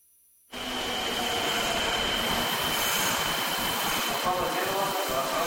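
A train departing: loud, continuous rumbling and rattling rail noise starts suddenly after a brief quiet moment. It holds steady, with a thin, high, sustained whine running through it.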